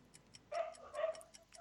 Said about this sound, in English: That's the dog. That's the dog.